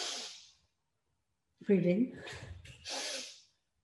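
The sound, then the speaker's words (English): Deep breath in during a guided belly-breathing exercise, heard as soft airy rushes of breath at the start and end with a brief voiced sound between them. “So you breathe in,”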